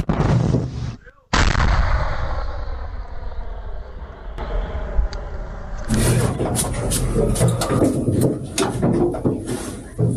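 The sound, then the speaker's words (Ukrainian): An artillery gun fires one sudden, massive blast that rolls off into a long, heavy rumble, followed later by a further stretch of loud, rattling, noisy sound. “Заряджено, розблоковано. Пішов процес. Щось буде смерть ворогам. Постріл!”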